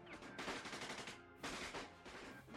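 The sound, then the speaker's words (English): Automatic gunfire mowing down armed cartel men: dense, rapid staccato bursts merge into a loud continuous crackle, break off for a brief lull midway, then resume just as thick. “Guns popped rhythmically in metallic staccatos that mowed down the armed men who did not get a chance to retaliate.”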